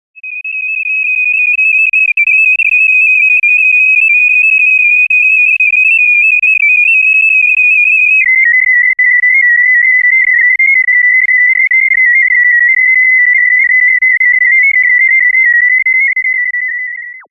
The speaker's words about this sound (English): Sound sample number 1, the apoptosis of breast cancer, cell line MCF-7.